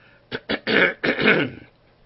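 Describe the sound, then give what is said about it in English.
Throat clearing by a man getting over a middle ear infection: two short rasping catches followed by two longer, gravelly clears. “I'm going to have a little bit of throat clearing I'll have to do, I guess.”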